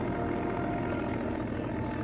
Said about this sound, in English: He gazes out as a small plane circles over the trees in the blue sky.